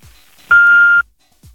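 Voicemail beep signal: a single steady, high-pitched tone lasting about half a second, heard alone with only faint low sounds just before and after.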